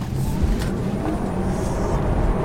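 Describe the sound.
A Tesla Model 3 dual-motor electric car accelerates hard, a steady, loud rush of road and wind noise with a faint high whine on top and no engine roar.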